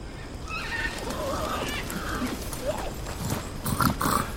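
Three horses with riders approach, hooves clip-clopping steadily over a dense, noisy background. The hoofbeats grow slightly busier toward the end.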